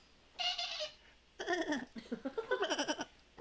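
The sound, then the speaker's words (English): A human voice imitates a sheep's baa pitched an octave higher than normal. There are a few bleats, each separated by a pause, and the last one is long and wavering. “bright pink sheep that has its nails painted red, and it baas an octave higher than most sheep would.”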